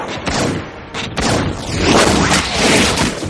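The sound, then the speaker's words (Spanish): Gunfire from an agent's gun in the 1999 science-fiction film The Matrix: a few loud, sharp blasts, then heavy booming, rumbling cinematic effects as slow-motion bullets pass. “El agente dispara. Neo ve las balas acercarse a cámara lenta y se dobla hacia atrás esquivándolas.”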